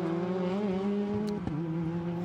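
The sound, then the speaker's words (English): Race cars lap the track during a practice session with a large field, giving a continuous, loud engine drone with strong harmonics and a brief shift in the note near the middle. “Out on the track, 30 of the 40 cars.”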